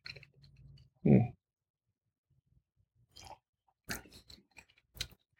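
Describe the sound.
Chewing a bite of lasagna with ricotta cheese: faint, wet mouth clicks and smacks, one louder crunch near the start, then scattered small bursts.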